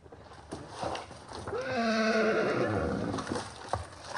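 A donkey in Brazil gives one long, wavering, harsh call lasting a couple of seconds over a busy outdoor background with scattered clicks and knocks.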